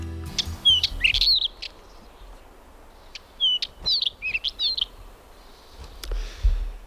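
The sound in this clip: A black wheatear sings outdoors in two bursts of quick, high, warbling chirps, with a faint steady background between the phrases.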